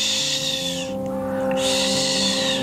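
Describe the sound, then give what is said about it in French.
A barn owl gives two long, harsh, hissing screeches separated by a short pause, loud and breathy, over a steady low tonal hum. “Le cri de la chouette effraie, c'est un”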